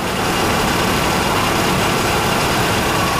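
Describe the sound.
A motorcycle engine idles while parked at a doorway, giving a continuous, loud, even rumble with no change in pitch and no voices.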